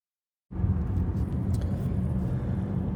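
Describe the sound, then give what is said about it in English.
Low, steady rumble of a car driving to the office starts abruptly after a brief moment of silence and then holds constant, without talk. “I'm driving to the office on a nice sunny Monday morning”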